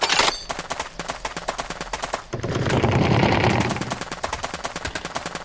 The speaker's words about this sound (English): Hold your fire. Wait, is this still a bug?